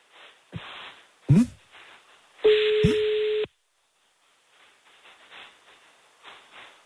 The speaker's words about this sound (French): On y va, on l'appelle, ça va sonner dans quelques instants